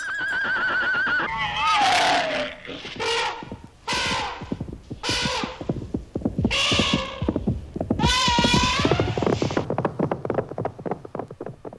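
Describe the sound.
Horses neighing, several loud, warbling whinnies in a row, each a long quavering cry rising and falling in pitch.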